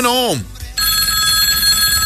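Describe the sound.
A telephone rings for an incoming call. A falling swoop of tone comes first, then a bright electronic ring holds steady and loud to the end.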